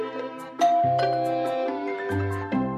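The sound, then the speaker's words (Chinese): A doorbell chimes a short melody of several bright tonal notes that ring and overlap over a few seconds, fairly loud and alone. “这时门铃声响”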